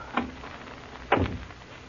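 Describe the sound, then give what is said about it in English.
A door is shut: a light knock comes first, then a louder, heavier thud as it closes. “Better close the door.”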